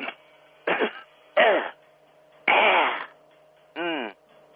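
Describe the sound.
Someone clears their throat in a few short, raspy bursts separated by pauses, the later ones fuller and more voiced, over a faint steady hum.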